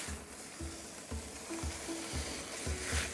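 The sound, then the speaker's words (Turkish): A spoon stirs a stew in a pot with a quiet sizzle of frying underneath. Low, rhythmic scraping strokes repeat every half second or so, faint and steady. “İyice karıştırıyorum. Şahane kokular geliyor.”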